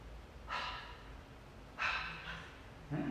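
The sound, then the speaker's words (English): A person voicing the breathy Sanskrit visarga, three soft, airy exhalation puffs spaced apart, quiet and alone. “It's the breath. It's the sound of the breath. This is the last letter. And it's the sound of the breath.”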